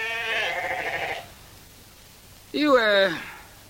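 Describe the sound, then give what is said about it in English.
Sheep bleat out on open moorland. Two wavering bleats are heard, the first longer and the second louder, separated by a quiet pause. “Just me and the sheep.”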